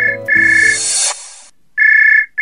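A phone ringing while a call is returned after a meeting: a steady, loud, high electronic tone, cut by a brief burst of noise, then the same tone resumes.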